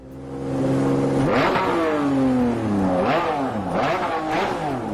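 Artificial driving sound added to a quiet electric car: a loud, steady synthetic engine-like whir whose harmonic tones swoop up and down in pitch several times, rising and falling like revving.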